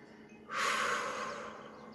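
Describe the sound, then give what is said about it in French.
A long, steady breath blown out during a slow neck exercise: a soft, breathy hiss that starts abruptly and stays fairly even for about a second and a half, heard alone. “Je souffle.”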